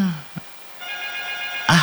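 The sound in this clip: Telephone ringing for an incoming call: one sustained electronic ring tone, steady and fairly bright, sitting between short bursts of a voice at the start and end.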